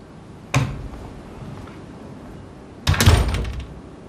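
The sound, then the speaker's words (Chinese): A door is closed with two dull thuds: a lighter knock, then a couple of seconds later a heavier, rattling bang. No one speaks. “把门关上。”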